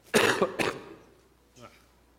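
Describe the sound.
A preacher clears a tickle from his throat during a sermon with two harsh, rasping bursts in quick succession. A brief, faint vocal sound follows a moment later.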